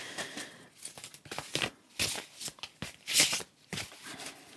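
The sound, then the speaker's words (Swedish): Playing cards being shuffled, a large, brand-new deck whose cards stick together slightly; several crisp riffling and crackling bursts come in an uneven rhythm, with quick flutters between them. “Jag blandar och den är så ny den här kortleken så de klibbar sig fast lite grann.”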